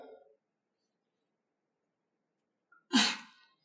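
A single sharp, loud sneeze bursts out near the end after a long, nearly silent stretch, with a faint breathy sound at the very start.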